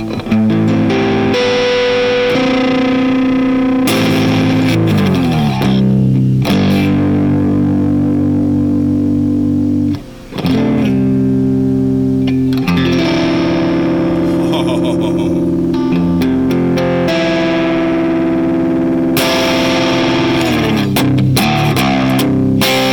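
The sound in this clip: Electric guitar on the neck pickup through a distortion effects preset called split, playing loud, sustained saturated chords and notes that ring almost continuously for about twenty seconds, with one brief drop near the middle and no talk.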